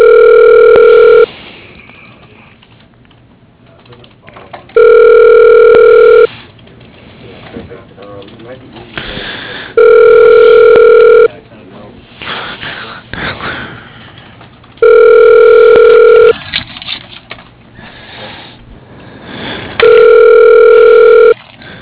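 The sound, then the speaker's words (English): Telephone ringing tones sound while a call is being connected: five steady, loud tone bursts repeat at regular intervals, with quieter noisy gaps between them. “Please hold while I try to connect you.”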